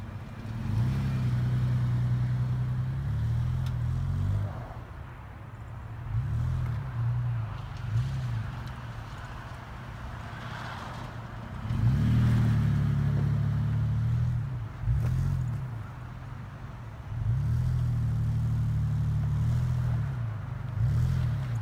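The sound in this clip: A stuck Toyota FJ's engine revs hard in all-wheel drive, a low droning roar that surges and eases in several long pushes with short dips between them.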